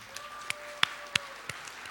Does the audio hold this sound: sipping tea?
no